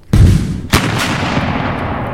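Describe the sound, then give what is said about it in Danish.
Damp gunpowder spread out near a campfire to dry suddenly explodes, with two loud, sharp blasts in quick succession followed by a long, rumbling roar that slowly fades. “Deres krudt var blevet vådt, og derfor besluttede de sig for, at drysse det ud i nærheden af deres lejrbål for at tørre det. I næste nu eksploderede deres lejr.”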